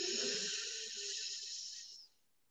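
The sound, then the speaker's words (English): A deep breath drawn in during a guided breathing exercise: one steady, airy hiss lasting about two seconds before it fades, with no talking. “Breathe in.”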